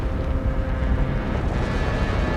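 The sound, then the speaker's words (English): Deep rumbling roar of an earthquake shaking the ground and a castle collapsing in a video game, loud and continuous with a steady dense low-end texture and no distinct separate impacts. “There's smoke coming up from the ground. There's a huge earthquake going on.”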